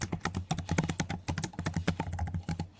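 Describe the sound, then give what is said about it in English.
Rapid, irregular tapping of keys as someone types on a computer keyboard. Many quick clicks come in uneven bursts with brief gaps, fairly quiet, with no voices. “I will type her name in the chat.”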